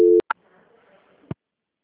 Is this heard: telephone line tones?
yes

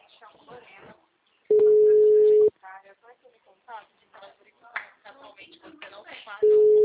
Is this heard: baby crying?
no

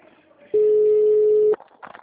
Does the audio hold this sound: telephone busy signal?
yes

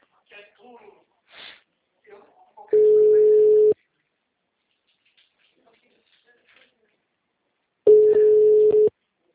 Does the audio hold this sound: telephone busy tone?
yes

